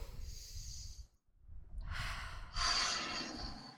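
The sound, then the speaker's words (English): A deep breath: a long, breathy rush of air that swells and continues for about two seconds after a short quiet gap, fairly loud and heard alone without talking. “Deep breath.”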